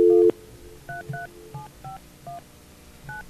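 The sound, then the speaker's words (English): Telephone dialing tones ring out as a phone number is keyed in: a short, loud steady tone, then a string of clear two-note beeps at uneven intervals, standing alone without talk. “Hope nobody listened to the tones and figured out the phone number there.”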